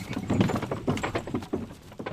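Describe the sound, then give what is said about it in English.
Clydesdale horses' hooves thud and shuffle as they back a wagon at the base of Mount Taranaki on slightly wet ground. The soft clip-clop steps come at an uneven pace. “Steve Muggeridge backing up his wagon with a little help from his Clydesdales at the base of Mount Taranaki, the new home for his beloved herd.”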